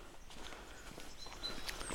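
Footsteps on a path during a long-distance hiking stage in light rain, a few soft, faint steps in an irregular rhythm, with thin bird calls above them.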